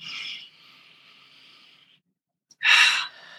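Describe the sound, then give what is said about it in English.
Slow guided breathing, in through the nose and out through the mouth with the out-breath drawn longer: a soft airy inhale trailing into a long faint exhale, then a louder, breathy rush of air, with no voices. “And again, in through your nose, out through your mouth. Letting the out breath be longer. And again, last time.”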